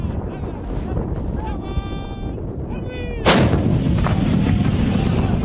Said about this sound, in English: Where they are shelling the absolute downtown centre to try to drive out the last of Gaddafi's